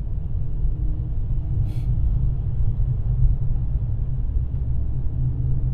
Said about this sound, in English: I'm driving into work right now